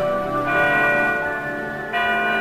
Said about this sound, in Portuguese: solta lá os sinos.